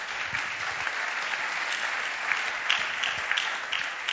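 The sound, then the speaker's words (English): Applause from an audience during a church sermon, a steady patter of many clapping hands lasting several seconds with small bursts of louder claps. “Put your hands together for Martha.”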